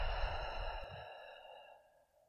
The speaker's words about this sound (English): breathing with me through three cycles of clearing breath, breathing in deeply and exhale, letting it go.